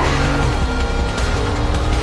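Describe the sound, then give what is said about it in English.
A car braking hard and fishtailing into a parking lot. A loud, dense roar of engine and tire noise holds steady throughout with a low rumbling hum beneath. “She spins the wheel. The car fishtails into a parking lot.”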